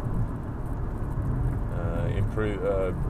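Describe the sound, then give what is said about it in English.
Steady low engine and road rumble from a car driving on a country road while overtaking a truck, with a person speaking over the noise. “Yes, I'm driving. That's why the sound quality is poor. I'm overtaking a truck on a country road.”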